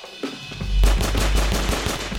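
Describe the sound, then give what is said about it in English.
Gunfire as soldiers shoot at fleeing men: a heavy, booming volley breaks out after a quieter start, then continues as a rapid run of many sharp shots over a deep rumble. “The soldiers shot at them. Bullets hit the ground and dust flew up around Teklit's ankles.”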